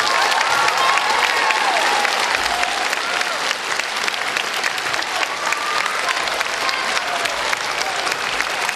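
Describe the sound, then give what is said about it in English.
Audience applause welcoming a speaker at a school event, a loud, dense, steady clapping that holds its level for the whole stretch. “I want you to put your hands together and give a super Irish welcome to the man we're very proud of, the fastest man in Ireland, past pupil, Israel Olatunde.”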